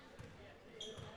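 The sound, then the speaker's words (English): A basketball is dribbled out during a county tournament game, its faint bounces under a man's talk. “Silicaga looks like they will just dribble this basketball out.”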